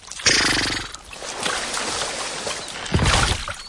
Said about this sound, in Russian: Старый мост рассыпается. Вместе с конем Алеша падает в воду.